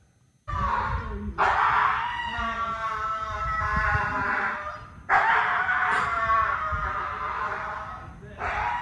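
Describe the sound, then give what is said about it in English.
A dog gives drawn-out, wailing, complaint-like cries rather than short barks: several long, high, tonal sounds separated by brief pauses, loud and alone. “what is going on with that dog?”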